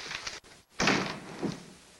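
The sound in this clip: A door closes as people leave, a single soft thud after a brief pause, fairly quiet, with faint shuffling before it.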